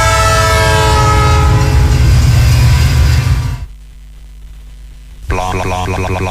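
A train passes sounding its horn: loud, sustained horn blasts over heavy rumble and clatter, then a brief drop to a quieter rumble before the horn and rail noise return loudly.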